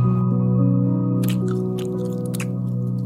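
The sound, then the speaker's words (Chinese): Chewing from someone eating grilled fish and honeycomb: a few soft, wet bursts over steady sustained background music. “有东西可以吃吗？ 有的，有的，我拿一点烧鱼跟蜜房给您吃。”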